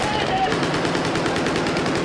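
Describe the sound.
Gunfire from Japanese Self-Defense Force soldiers at a military open day at a camp in Tokyo, after two young men arrive on motorcycles and drop to the ground: a loud, sustained burst of rapid, evenly spaced shots.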